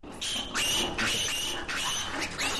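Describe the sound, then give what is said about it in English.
Piglets on an Ohio hog farm squeal as they are pulled from their mothers by an ear or a leg. Shrill, piercing, overlapping screams come in several sustained bursts with brief gaps between them. “Those are piglets being torn from their mothers by an ear or a leg and then thrown into a bin.”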